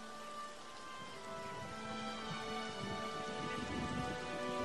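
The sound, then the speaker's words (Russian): Rain begins to fall at a graveside: a steady, even hiss that holds level and swells slightly toward the end, with sustained musical tones running underneath. “начинает идти дождь”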